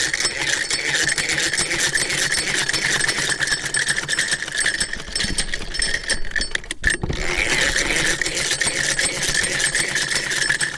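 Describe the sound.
Steady mechanical whirring of a sewing machine run by a woman tailor at home, a continuous rhythmic clatter that briefly halts partway through and then resumes.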